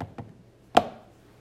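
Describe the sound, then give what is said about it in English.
A coin is flipped and lands: a couple of faint ticks are followed by one sharper, brief click, heard alone. “Flip a coin. Tails.”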